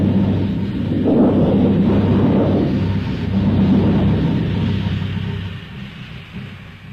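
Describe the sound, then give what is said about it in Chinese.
Thunder rolls through a thunderstorm in a radio drama: a loud, continuous low rumble that swells and churns for several seconds, then eases and fades near the end, with no talking. “第三幕，风雷闪电刚过，接着下了一场暴雨。”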